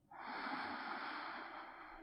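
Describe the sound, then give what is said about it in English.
A deep, full inhale during a guided breathing exercise: a soft, airy rush of breath that starts abruptly and holds steady for nearly two seconds, faint and alone. “just taking a deeper breath into that place. Full inhale.”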